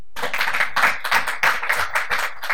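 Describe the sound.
Audience applause welcoming the panel at an evening discussion event on higher education in Sydney: dense, steady clapping from many hands fills the whole clip at an even loudness, with no talk over it.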